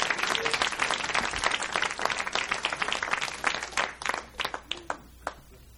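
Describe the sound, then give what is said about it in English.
A church audience applauds to welcome a visiting pastor and his wife, a dense, even wash of many hands clapping that thins out toward the end into scattered, separate claps. “Just give them a hand and welcome them.”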